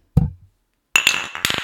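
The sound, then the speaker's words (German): Beer glasses clink together in a toast over Rostocker Pilsner. A dull knock comes first, then a quick run of bright, ringing glass clinks, loud and close together, with no talking. “Wollen wir darauf nochmal anstoßen? Ja, machen wir. Aber erst mit Mikrofon und dann mit dem Glas.”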